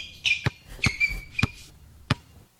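Four thuds of a basketball bouncing, spaced unevenly, with high squeaky tones accompanying the first three bounces.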